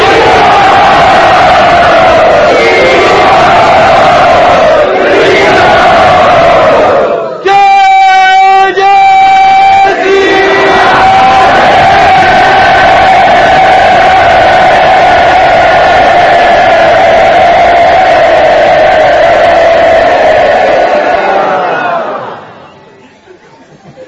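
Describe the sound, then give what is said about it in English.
A crowd at a gathering cheers and whoops loudly to welcome a guest, a dense roar of voices that lasts over twenty seconds with a brief sustained tonal call partway through, then fades out. “So let us very loudly welcome Dinabandhu.”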